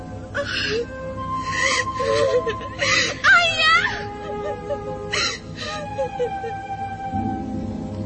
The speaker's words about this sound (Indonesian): Warapalupi tidak mampu lagi menahan sesak di dadanya, maka meledaklah tangisnya.